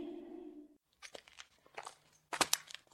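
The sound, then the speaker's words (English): Foil Pop-Tart wrappers crinkle in irregular crackly bursts that grow louder toward the end, after a short tonal sound at the start. “What's that in your hand? Foil wrappers. Like the kind you find wrapped around... Pop-Tarts?”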